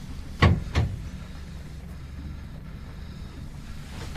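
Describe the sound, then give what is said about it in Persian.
An officer unlocking a door lock: two sharp clunks in quick succession, followed by a steady rushing background noise. “افسر قفل در رو باز میکنه”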